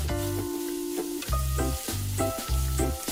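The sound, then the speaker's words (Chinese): Sizzling of giant river prawns coated in starch and salt as they pan-fry, later stir-fried with green and red peppers and scallions; a continuous hiss that swells and eases in a loose rhythm. “接着将虾放进锅中煎制，随后放入青红椒、葱段，快速翻炒一会儿。”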